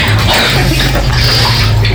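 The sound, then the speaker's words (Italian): A shower running, water hissing in a loud, steady, unbroken rush from start to finish. “Adesso faccio un doccia e vado a dormire.”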